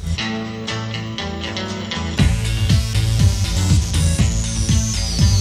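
Instrumental music track built on repetitive folk-like guitar figures with housey acid sounds. A plucked, looping pattern opens, then a pounding beat and fuller texture enter about two seconds in and carry on at a strong, even level.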